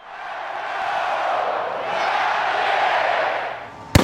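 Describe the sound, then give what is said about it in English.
WVU football fans roar on game day, a broad crowd cheer that swells and holds, then the Mountaineer mascot's rifle fires one sharp, loud bang near the end, followed by a brief ringing tail. “That's the sound of WVU fans cheering and the Mountaineer mascot's rifle firing. And a lot goes into that bang.”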